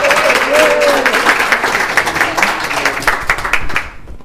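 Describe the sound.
A crowd applauds to welcome a speaker to the stage with loud, dense clapping that holds for about four seconds before quickly dying away.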